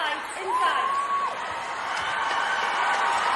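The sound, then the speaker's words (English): Netball fans cheer inside the Motorpoint Arena during a match, a continuous broad crowd roar at moderate level, with a sustained whistle-like tone rising out of it early on. “And the fans around the Motorpoint Arena cheering the fans.”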